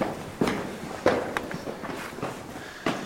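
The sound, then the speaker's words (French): Footsteps climb a short flight of stairs underground, a handful of uneven, moderately loud steps with scuffs between them and no talk over them. “On attaque la remontée. Petite série d'escaliers.”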